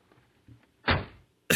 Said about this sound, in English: Let me open the door. There you go. Let me step away from the car.